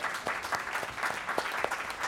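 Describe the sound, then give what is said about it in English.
Audience applause after thanks to nurses working on Christmas Day, a steady crackle of many hands clapping at moderate level throughout, with no talk over it. “a round of applause for those who are”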